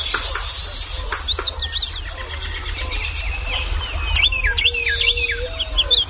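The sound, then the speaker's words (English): Songbirds sing in early spring: bright, high whistled notes come in quick series, with a burst at the start and another group later, over a low, steady background rumble. “the serenade of birds early in the spring when birds are first returning and begin setting up territories is as good or better than any place I've heard anywhere in the country”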